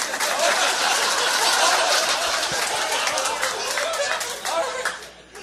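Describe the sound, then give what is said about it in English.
Audience applause at a live show: dense, steady clapping that stays loud for about five seconds and then tapers off, with crowd chatter mixed in. “Round of applause for Wes, everybody.”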